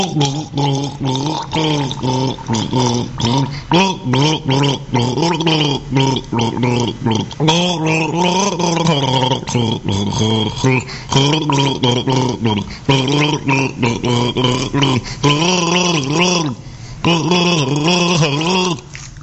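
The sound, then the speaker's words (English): Someone gargles a song tune: a continuous warbling, bubbling vocal sound whose pitch rises and falls like a melody, carrying on steadily for about nineteen seconds without any talk. “We'll load number 8 into the system. Here is Gargle number 8.”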